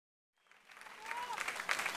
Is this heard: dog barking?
no